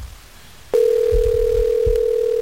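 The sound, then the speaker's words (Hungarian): A telephone dial tone cuts in abruptly after a call line drops during an attempt to redial. The steady, unbroken mid-pitched tone holds loudly, with faint low thumps beneath it. “Úgy látom, hogy megszakadt a vonal.”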